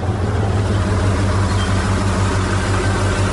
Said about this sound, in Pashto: یو لاړۍ خو راغله، همدا لاړۍ ته به لاس ورکم.